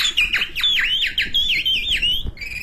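A man whistles in imitation of a caged bird's call, a rapid run of bright, high, swooping chirps with repeated downward-bending notes, loud and alone without speech.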